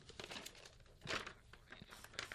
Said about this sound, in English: fold it over such that the edge of the page lines up with the crease from your first fold, that 45-degree crease. This is a shallower fold than your initial fold.